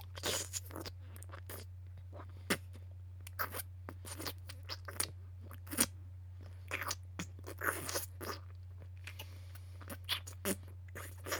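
Crunching and chewing of food, with many irregular, crisp crunches and bites coming in uneven bursts. The sounds are quiet and sit over a steady low hum.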